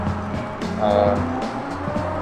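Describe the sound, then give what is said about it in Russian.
A motorcycle passes by, heard from a balcony. Its engine drone swells to a peak near the middle and then eases back over steady background noise. “сейчас мотоцикл проедет, зато у тебя будут звуки с моего балкона”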